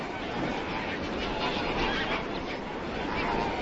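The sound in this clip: A flock of lesser flamingos calls at a lake with water rich in volcanic minerals. Dense honking chatter blends into one steady, continuous wash of overlapping calls.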